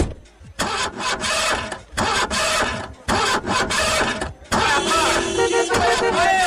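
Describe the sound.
Engine of a convertible 12-cylinder sports car with nearly 300 horsepower, first heard as choppy bursts of mechanical noise with brief gaps, then settling into a sustained, steady harmonic running sound at the end.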